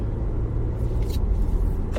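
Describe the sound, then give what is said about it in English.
A car drives along a road, its low engine and tire rumble steady and even throughout. “sorry, I'm driving, going to the post office to mail this order”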